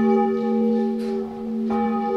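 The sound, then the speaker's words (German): Old church bells ring in a bell house beside a chapel, a steady, resonant chord of sustained tones with a couple of fresh strikes renewing the ringing partway through. “Vor der Sprengung wurden unter anderem die alten Glocken gerettet. Heute läuten sie im Glockenhaus neben der Versöhnungskapelle.”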